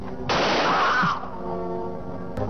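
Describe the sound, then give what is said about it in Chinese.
A single muffled gunshot from a pistol wrapped in a shawl and fired into a leg: a dense burst of noise lasting under a second over a steady background rumble, then settling back. “这时他朝自己的腿上打了一枪，”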